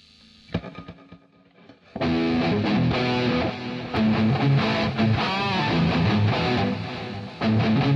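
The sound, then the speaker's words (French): Electric guitar played through a Screamer distortion pedal. A few quieter picked notes give way to a sudden loud, gritty wall of sustained distorted chords that carries on to the end. “Et Screamer, je sais pas ce que c'est, Screamer. C'est quoi Screamer? C'est une distorsion.”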